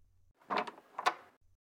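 A door being opened, heard as two short, faint clunks about half a second apart, with near silence around them.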